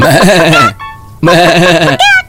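Goat bleating: two long, loud, wavering bleats with a quavering tremble, separated by a brief gap holding short steady tonal notes, with another short tonal sound near the end.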